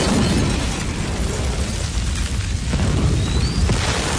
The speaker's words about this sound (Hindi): वो आदमी धमाके में उड़ गया।